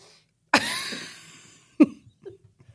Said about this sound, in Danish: Jeg skal pusse næse. Jamen, du kan godt lige nå at gøre det færdigt.